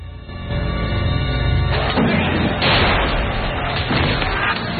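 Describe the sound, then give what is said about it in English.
Siege artillery explodes around a hilltop fort under bombardment. Heavy, low, rumbling blasts overlap one another and stay loud, with a few stronger bursts rising out of the continuous roar. “The fort is still some way off, but its position is more than evident from the frequent explosions illuminating the sky above it.”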